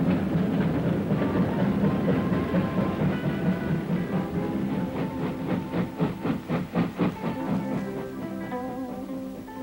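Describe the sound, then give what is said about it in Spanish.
A steam train pulls away from a station platform in a steady wash of hissing steam, with a run of rhythmic chuffs building midway before easing back into the hiss. “Martins ve cómo el tren parte inundando el andén de vapor.”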